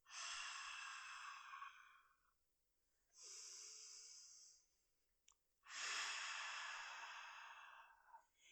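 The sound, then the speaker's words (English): Deep breathy exhales like fogging a mirror during a breathing exercise: a few long, airy hisses separated by quiet pauses, soft and unaccompanied by talk. “Deep breathing in. And breathe out as if you are trying to clear a mirror. So you would breathe out like,”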